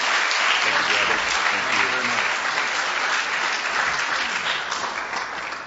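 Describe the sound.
Applause from a church audience welcoming a speaker to the front at a morning service: steady, dense clapping that continues throughout and eases slightly near the end.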